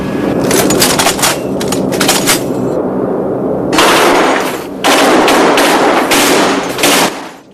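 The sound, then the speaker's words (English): Aircraft machine guns test-fired aboard a plane with gun turrets: loud, rapid automatic bursts, several long volleys separated by short pauses, over a steady low rumble. “Okay, let's test our guns.”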